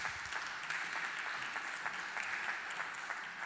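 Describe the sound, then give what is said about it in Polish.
Applause greets a visiting married couple at a gathering: dense, steady clapping from many hands runs through the whole stretch at an even, fairly loud level, with no voices. “Możemy ich przywitać oklaskami, trochę ich zachęcimy.”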